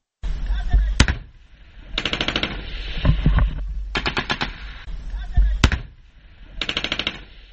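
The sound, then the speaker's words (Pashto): Automatic gunfire erupts during a military operation in Nesh district of Kandahar: several bursts of rapid shots separated by short pauses, with single sharp cracks standing out loudly among them. “د دغو عملیاتو په اړه راپور رالېږلی دی چې د ډزو په شخ پیلېږي”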